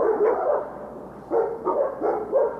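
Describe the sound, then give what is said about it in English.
A person imitates yellow Labrador dogs barking, voicing several gruff, woofing bark sounds in uneven bursts with short gaps between them, moderately loud and with no other sounds. “I have a couple yellow labs at home, and I did my own impersonation. I want to let our listeners hear my best rendition of our yellow labs.”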